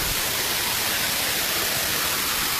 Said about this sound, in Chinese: 大家应该可以听到这个瀑布的声音了